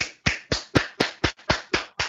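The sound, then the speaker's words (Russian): Eight loud, sharp hand claps made as an audio test, struck singly in an even, quick rhythm about a quarter second apart, each with a crisp attack and short decay, with no voices. “Громкие хлопки, разные звуки для передачи.”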